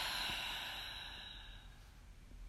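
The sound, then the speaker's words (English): Deep breathing during a relaxation exercise, in through the nose and out through the mouth: a soft, breathy rush of air that starts strongest and gradually fades, with no talk. “breathe in really deep in through your nose. Hold it at the top and release through your mouth.”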